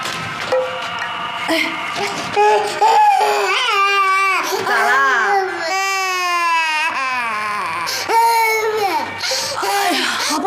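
A child cries in long, high, wailing sobs that run almost without pause, loud and strained, with the pitch bending up and down between breaths.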